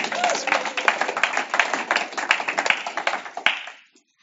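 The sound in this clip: Applause from a crowd: many overlapping hand claps form a dense, steady crackle for about three and a half seconds before dying away quickly.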